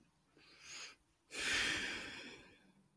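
A slow, deep breath during a calm relaxation exercise with a hand on the heart: a soft, short inhale, then a longer, fuller breathy exhale that gradually fades, quiet throughout.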